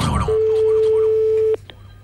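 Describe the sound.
Ringing tone of an outgoing telephone call: a single steady, mid-pitched beep lasting over a second, following a brief burst of voice and ending in near quiet.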